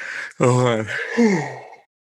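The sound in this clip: A person imitates a yawn with a drawn-out voiced sound in two swelling parts, lasting under two seconds, followed by silence.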